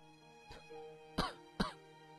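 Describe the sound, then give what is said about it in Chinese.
A boy coughs three times, faintly: a softer first cough, then two sharper, harsher coughs close together. “男孩咳嗽着，不得不停止说话。”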